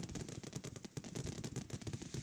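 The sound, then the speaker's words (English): Gunshots crack in quick, irregular succession, many sharp reports bunched close and overlapping into a dense, crackling stream that stays fairly faint throughout. “There's a little couple errant shots here and there, but you got to expect that.”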